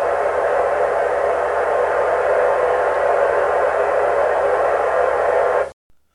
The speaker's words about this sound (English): Apologies for that creepy ass static that just came in